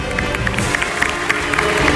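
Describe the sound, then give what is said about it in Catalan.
Crowd noise and clapping welcome the band's drummer at a show in a circus: a dense, steady wash of sound holding for two seconds, with no pause or single clear burst. “Ah, sí, un aplaudiment al Jaume, el bateria del Cidre.”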